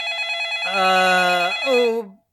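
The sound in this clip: A telephone ringtone sounds: a loud, buzzy electronic tone held steady, briefly stepping up in pitch and then sliding back down before cutting off abruptly.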